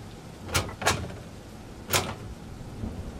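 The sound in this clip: Someone tries to open a locked laboratory door, producing three short, sharp rattling jolts: two close together, then a third after a pause, over a quiet, steady background.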